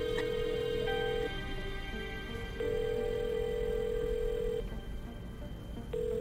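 Ringback tone of an outgoing telephone call: a faint, steady mid-pitched tone sounding in long pulses separated by pauses, repeating over a low background hum, with no voices.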